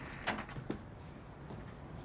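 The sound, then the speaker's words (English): A front door opening after a knock, very faint: a couple of soft clicks and taps near the start, then a low, quiet shuffle of movement that continues to the end. “She knocks. The door opens.”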